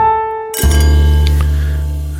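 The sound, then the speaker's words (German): A short jingle marks a break in a wine-tasting segment: a soft tone gives way to a bright, glassy clink that rings on as sustained, chime-like tones and slowly fades. “Wir müssen erstmal jingeln.”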